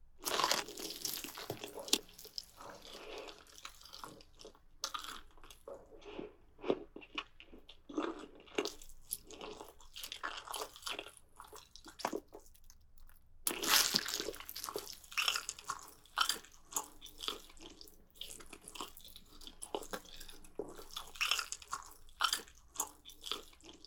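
Someone bites and chews thigh meat up close, making many soft, crunchy, wet mouth sounds in an irregular rhythm, with a short pause partway through.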